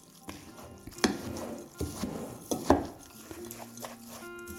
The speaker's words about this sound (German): Und nun nur noch ummischen. Einmal schön kräftig umrühren, dass alles gut verteilt ist.